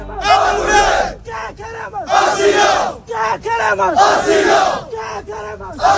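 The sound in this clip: Crowd of Moroccan migrants chanting at a makeshift beach camp of improvised shacks in Ceuta: loud massed voices shout in long unison bursts, with shorter ragged calls between, rising and breaking off in a rhythmic protest pattern.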